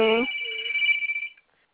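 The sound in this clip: A phone ringtone at home, a high steady electronic tone that lasts just over a second and cuts off, with a brief voice at the very start.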